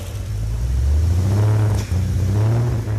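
A freshly lubricated engine starts for the first time and revs, giving a loud, rough, continuous low drone with a brief dip in power before it picks up again.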